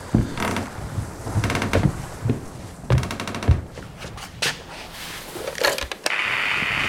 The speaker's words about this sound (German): ich habe gerade versucht, den verdammten Elektrikkasten mit einem Messer zu öffnen, aber der Schraube ist beim besten Willen nicht beizukommen.